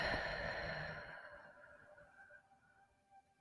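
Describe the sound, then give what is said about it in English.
A slow out-breath after a deep inhale during a guided breathing exercise: a soft, airy hiss that fades over about a second, then near silence with faint breathy noise. “Breathe in and release.”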